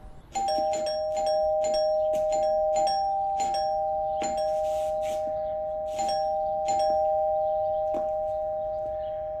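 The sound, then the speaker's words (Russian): A doorbell rings with many quick, bright pulses over a steady sustained tone, holding a fairly loud and even level that slowly tapers off. “Девушка с собакой звонит в дверь Кости.”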